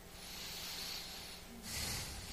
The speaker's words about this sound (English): The Holy Spirit fills our lungs, humanity's lungs. Take a deep breath right now.